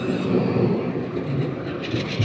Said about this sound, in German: So, Vorsicht, hier kommt eine Bahn, da wollen wir nicht davor laufen.